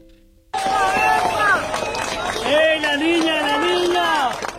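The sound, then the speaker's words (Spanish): Cheering and excited shouting from a crowd celebrating the rescue of a three-year-old girl pulled alive from under a collapsed building after an earthquake in Cali, Colombia. Loud, overlapping voices start abruptly after a short quiet moment and continue. “Es sonido de la celebración del rescate de una niña de 3 años con vida bajo un edificio en Cali”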